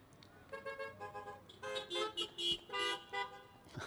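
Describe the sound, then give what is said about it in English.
Car horns honking in a string of short tonal blasts of differing pitch, softer at first and then louder, with many honks following one another quickly. “I love all the different horn sounds.”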